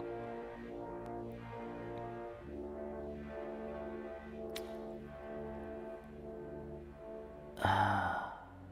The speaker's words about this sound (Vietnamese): Bắt đầu buồn ngủ rồi, đọc thấy ngáp rồi.